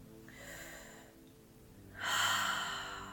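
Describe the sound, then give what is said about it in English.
A deep breath is taken during a guided relaxation exercise: a soft, airy breath, a brief lull, then a louder, longer rush of air that slowly tapers off. “And when you're ready, let's take a nice deep breath.”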